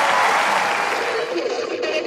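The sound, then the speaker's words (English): Audience applause at a Roland Garros tennis match after a semi-final qualification: loud, dense, sustained clapping from a large crowd, holding steady throughout with slight dips near the end. “Mesdames et messieurs, merci d'applaudir.”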